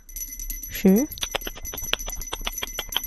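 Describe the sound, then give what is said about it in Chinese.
A small bell jingling in many quick, bright strikes at an uneven rhythm, with a brief voiced sound near the start and a steady high tone throughout. “接下来10秒，只有铃铛声。”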